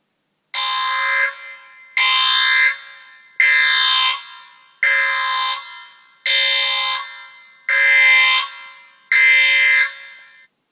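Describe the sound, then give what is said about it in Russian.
A shrill electronic alarm siren sounding in military crew quarters, seven evenly spaced loud, high-pitched blasts of about a second each separated by brief gaps, with no voices. “как вдруг ни с того ни с сего пронзительно взвыла сирена.”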